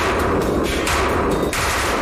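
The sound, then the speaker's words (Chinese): Gunfire from a Type 191 rifle during a harsh sand and dust endurance test, a loud, dense run of sharp shots in quick succession with no pause. “然而在如此严峻恶劣的环境中，测试员所使用的191式步枪也未发生任何故障。”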